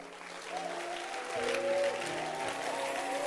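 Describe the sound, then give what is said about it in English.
Audience applause at a gathering as a singer is welcomed: a dense, steady wash of many hands clapping, growing somewhat louder after the first second and a half and continuing to the end. “tonight, I want you to put your hands together.”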